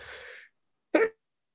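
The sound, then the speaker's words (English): A single short, quiet sneeze, an abrupt burst after a soft, breathy intake and a pause of silence. “I'm about to sneeze.”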